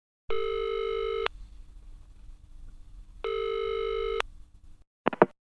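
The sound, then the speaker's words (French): A telephone rings twice before an answering machine message. Each ring is a long, steady electronic trill lasting about a second, separated by a pause, and a couple of brief clicks follow. “Écoutez le répondeur.”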